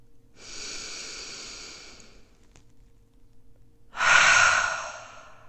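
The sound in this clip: Slow breathing during a guided meditation: two long, soft, airy breaths separated by a quiet pause, the second noticeably louder and more rushing than the first.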